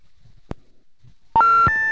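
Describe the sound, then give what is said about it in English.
Electronic beeping of an incoming phone call: after a brief sharp click, a loud run of steady synthetic tones begins, changing pitch partway through and holding to the end, with no voices. “Uh-oh, that must be him. He doesn't wait at all. Great Scott. Oh, shit. I don't have the phone set up for inbound calls yet.”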